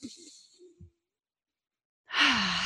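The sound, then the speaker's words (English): A deep breath is released as a long, airy sigh, loud and breathy, after a few soft vocal sounds and a stretch of silence. “Let's take a deep breath. I'd like for you to take a deep breath with me.”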